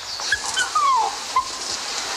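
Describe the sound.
A dog whimpers while being sprayed against fleas, letting out a few thin, high, brief whines.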